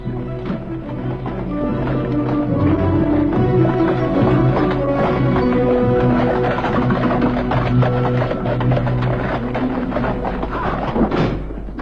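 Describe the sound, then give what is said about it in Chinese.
Hooves clip-clop as a horse-drawn carriage sets off, a steady run of rhythmic hoofbeats continuing over a sustained tonal backdrop. “罗杰斯特急速的、疯狂的把我拉上马车。”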